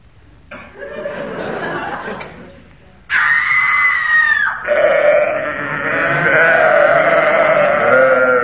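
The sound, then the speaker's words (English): A woman's scream mixed with sheep bleating, a sound effect of a woman tripping over a sacrificial sheep: wavering cries, then a loud sustained high shriek, then long quavering bleats. “That was a Vestal Virgin tripping over a sacrificial sheep”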